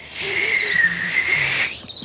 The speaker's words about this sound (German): Ich kann pfeifen.